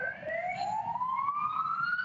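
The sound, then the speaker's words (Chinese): Police car sirens wail at a street protest, a fairly faint electronic tone that climbs slowly in pitch with higher harmonics above it, over a low background rumble. “现在你可以看到，现在警车都在推进哈。”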